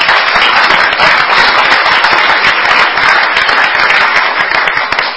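Audience applause congratulating the port on another record year fills five seconds with loud, dense, even clapping that barely varies before tapering at the very end.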